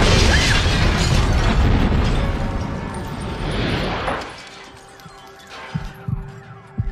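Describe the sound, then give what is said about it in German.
A bomb goes off in a TV series, a loud, dense roar that holds for about four seconds and then falls away into a quieter tail with a few scattered pops. “Darüber führt der Bombenleger, der hat nämlich noch ein Abschiedsgeschenk hinterlassen. Eine Bombe, die der Logan als frischbackener Ehemann gerade ins Jenseits befördert.”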